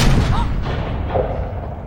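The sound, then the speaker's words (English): A gunshot from a pistol fired in the finale of a pirate adventure film: a loud, broad blast at the start with a rough, rumbling tail that fills about two seconds. No voices are heard. “Jack uses the bullet he's been saving for years to kill Barbossa”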